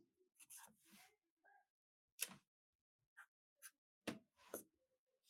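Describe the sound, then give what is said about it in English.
A pen writing on paper: faint, scratchy strokes in short, irregular bursts, with brief quiet gaps between them. “Hold on. Favorite active athlete? I'm writing mine down.”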